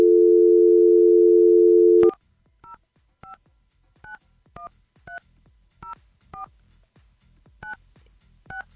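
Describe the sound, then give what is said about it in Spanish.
A telephone call is placed: a steady dial tone cuts off, then a quick series of two-tone dialing beeps follows at an even, slightly irregular pace, clear and alone. “A ver, está sonando. Vamos a ver si nos contesta.”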